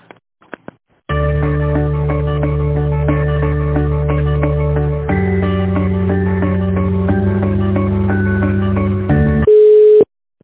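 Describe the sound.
Electronic on-hold tones during a call transfer to a construction company: loud, sustained synthetic chords that shift pitch a few times, ending in a single steady beep and then silence.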